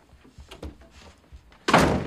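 A bedroom door is shut with one loud, abrupt thud near the end, after a few soft, scattered thumps and shuffles.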